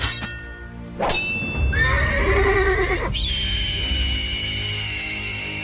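A horse at a historical equestrian show in Leeds gives a loud, shrill, quavering whinny after a sharp onset. The neigh breaks into a sustained high, ringing tone that fades slightly toward the end.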